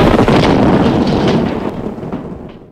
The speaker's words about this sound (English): Well, that guy went kaboom. So did his posse.